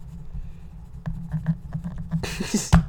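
Writing something down: a few soft, scratchy strokes over a steady low hum, ending with a brief, louder scraping burst.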